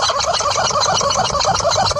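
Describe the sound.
A horse shakes a rubber chicken toy intensely, producing a dense, continuous, loud squawking and squeaking that churns on without pause.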